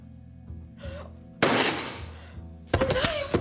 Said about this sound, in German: Der halbe Kopf ist weg. Mein Gott. Dieser Teppich hat ein Vermögen gekostet. Zum Glück kannst du dir ja einen neuen leisten. Du hättest ihn nicht erschießen müssen.